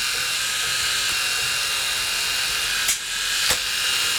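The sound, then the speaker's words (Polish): A modern electric shaver runs with its trimmer switched on, giving a continuous, even, bright buzzing hum. A couple of brief clicks sound near the end, and no one speaks over it. “Z trymerem włączonym golarka brzmi tak. Tego trymera prawie nie słychać.”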